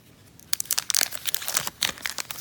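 A 2009 Upper Deck baseball card wax pack is torn open. After a quiet start, a rapid run of sharp crinkles and tearing bursts follows, fairly faint and without talk.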